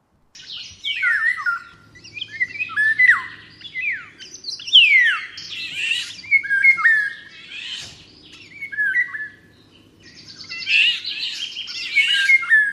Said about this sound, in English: And that is the sound of this beautiful bird.